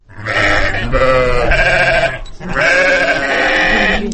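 Hungry sheep short of fodder bleat in a snowy winter village in the Chong Alai valley. Loud, wavering bleats form two long bursts in close succession, with only a brief break between them.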